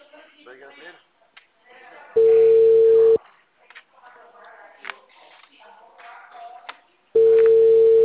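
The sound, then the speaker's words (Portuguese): Telephone ringback tone from an outgoing call, two long steady electronic tones of about a second each, separated by several seconds of people talking. “Tô ligando, hein?”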